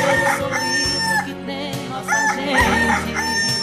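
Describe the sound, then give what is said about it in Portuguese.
A rooster crows in a loud, drawn-out cock-a-doodle-doo, with repeated harmonic calls rising and falling over a few seconds and no talk. “o galo está cantando”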